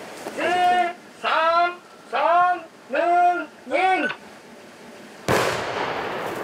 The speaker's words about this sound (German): Achtung, Achtung, wir sprengen jetzt.